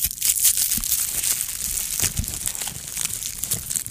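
A papillote candy wrapper is unwrapped with continuous crisp crinkling and rustling, many small crackles and crumpling bursts packed densely together at a fairly loud level.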